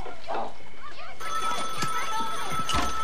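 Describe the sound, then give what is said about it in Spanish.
A telephone ringing late at night, a shrill, steady electronic ring that starts partway through and continues to the end, with a voice speaking over it. “Lance, está sonando el maldito teléfono. Ya lo oigo.”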